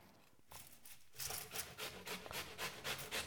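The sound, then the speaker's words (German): A knife slices through an onion while potato pancakes are being made, giving a quick run of soft, rhythmic scraping strokes with no talk. “Ich habe ja hier nochmal eine Zwiebel. Ich schneide wir jetzt einfach zwei Scheiben runter.”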